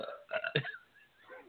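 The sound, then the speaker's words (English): A person lets out a drawn-out burp, croaky and throaty, rising to a rough peak before it trails off quietly, heard alone without talk. “I like duplicated your burp. Super professional.”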